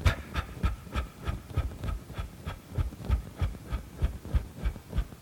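Rhythmic breath bounces out through a relaxed, open mouth during the qigong practice called dropping the post. Many soft, low, evenly spaced puffs beat in a quick, steady pulse, like a muffled heartbeat.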